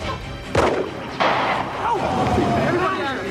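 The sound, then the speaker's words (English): Gunshots fired by a suspect during an armed standoff: two abrupt, sharp cracks in quick succession over a noisy background, with faint talk beneath. “The suspect fires off another round.”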